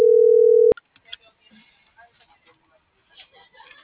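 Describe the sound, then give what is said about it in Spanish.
A telephone ringing tone sounds while a call goes unanswered: one steady mid-pitched tone lasting under a second cuts off abruptly, followed by faint scattered small noises. “Le sigo marcando y no me responde.”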